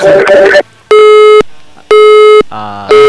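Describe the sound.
A telephone busy tone during a failed call-in attempt from a phone booth to a radio line: loud, steady, buzzy beeps of one pitch separated by short gaps, with brief talk before and between them.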